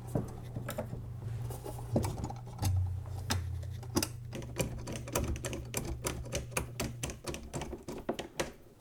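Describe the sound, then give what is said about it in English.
A screw is turned in by hand while a speaker's supporting bar is refitted. It makes many sharp, irregular clicks and ticks in quick succession over a low, steady hum. “Three of the four screws are in now, and now the fourth one.”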